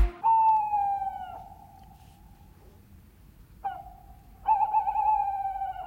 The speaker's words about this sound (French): C'est vous qui avez enregistré la chouette hulotte que nous entendons actuellement.